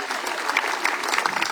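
Audience applause at the 35th-anniversary celebration of the Kastav Cultural Summer festival, a dense, even crackle of many hands clapping that holds steady through the short stretch.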